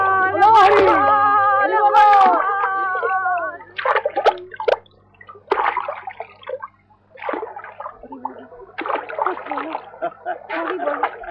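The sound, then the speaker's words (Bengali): Chanting voices give way to water splashing and sloshing as a small dinghy-like river boat is pushed off, the wet bursts coming irregularly and separated by short pauses. “ছাড়বো ডোঙা এইবার।”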